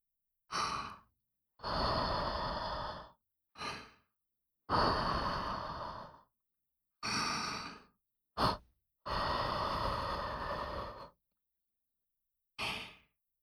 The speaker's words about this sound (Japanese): ふうふうしてあげましょうね。